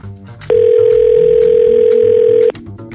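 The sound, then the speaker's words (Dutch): A steady, unbroken dial tone from a telephone line on an outgoing call holds one flat pitch for about two seconds, then cuts off abruptly, over quieter background sound. “En we gaan met hem bellen.”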